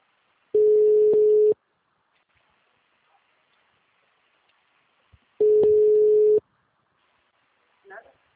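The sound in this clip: Ringback tone on an outgoing phone call: two long, steady, mid-pitched beeps, each about a second long, separated by a few seconds of near silence.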